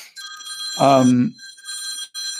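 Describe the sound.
A mobile phone ringtone sounds as a bright, high, warbling electronic tone. It pauses while a voice speaks briefly over it, then rings again.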